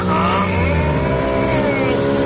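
A car engine in a video game runs and revs as a loud, steady, buzzing drone with layered harmonic tones that hold without a break for the whole clip.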